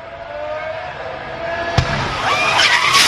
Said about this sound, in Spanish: Acaba de pasar a Fórmula 1 las imágenes del accidente y mira cómo suena el golpe.